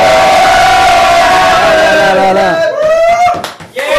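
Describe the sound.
A studio audience cheering and shouting together, a loud sustained crowd roar with raised voices that holds steady, then dips and breaks up near the end.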